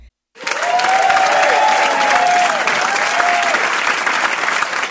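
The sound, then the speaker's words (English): Loud applause from a crowd, a dense, even clatter of clapping that starts abruptly after a brief silence and keeps going strongly to the end. “we got to stop right there, we got to hear some applause.”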